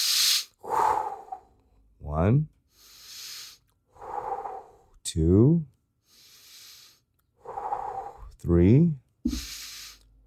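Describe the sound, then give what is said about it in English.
A person taking slow deep breaths, a series of long breathy inhales and exhales. Some exhales carry a voiced, sighing tone, with short pauses between the breaths and no talk. “Take a deep breath. Let's go. 5 deep breaths.”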